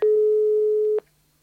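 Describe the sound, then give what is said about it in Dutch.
Telephone line tone while a call is being dialed: a single steady, mid-pitched beep holds for about a second and then cuts off into near silence. “Ik ga gewoon bellen.”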